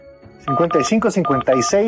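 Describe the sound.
Telephone touch-tone dialing of a number: a quick run of about six short, clear beeps at a brisk, even pace.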